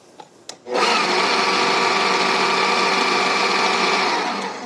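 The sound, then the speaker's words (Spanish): A motorized mixer whirs steadily as it mixes dry ingredients, including aluminum-free baking powder. Two short clicks come first, then a loud, even, buzzing whir holds for about four seconds and eases slightly at the end. “Entonces voy a mezclar estos 3 cosas que son los ingredientes secos solos para que se revuelvan primero.”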